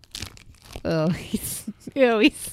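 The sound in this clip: Crinkling and tearing of two Twix candy bar wrappers being opened: bursts of plastic rustle mixed with loud voices.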